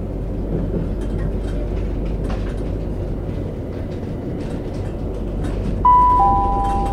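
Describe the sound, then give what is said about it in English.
Steady, loud rumble and clatter of a passenger train travelling on the line to Hastings, heard from on board and continuous throughout, with a two-note chime, the second note lower, sounding near the end. “This train is the service to Hastings, calling at Etchingham, Robertsbridge, Battle, Crowhurst, West St Leonard's, St Leonard's Warrior Square, and Hastings.”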